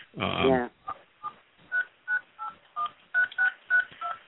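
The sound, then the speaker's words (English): Telephone keypad tones as someone dials into a call: a brief buzzier sound opens, then a string of short, evenly spaced, clear beeps follows at moderate loudness. “I'm trying to dial in.”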